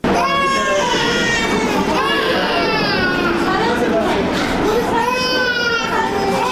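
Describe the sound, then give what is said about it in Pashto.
Children crying in the children's ward of a hospital in Tarinkot: continuous, high-pitched, wavering wails from several overlapping young voices, loud and sustained throughout. “د چا ماشوم په غیږ کې دي، د چا مخې ته پر کټ ورته پروت دی. ماشومان خپل رنگونه له لاسه ورکړي تک ژاړ دي.”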